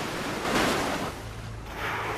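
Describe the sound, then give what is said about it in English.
A female marine animal slaps her flippers down heavily on the sea, throwing up foam and spray: loud, rushing splashes and surging water that swell, ease off, then build again. “She repeatedly brings her flippers down heavily on the water, creating plumes of foam and spray to warn off the pursuing suitors.”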